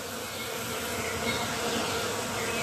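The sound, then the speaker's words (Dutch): Bees buzzing around a privet hedge in full, fragrant bloom. The drone is steady and unbroken throughout, with no talk. “dan word je helemaal moe en loom van dat continue gezoem.”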